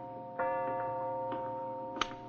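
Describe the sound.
A clock ticks faintly, a few soft, sparse ticks over a steady sustained humming tone.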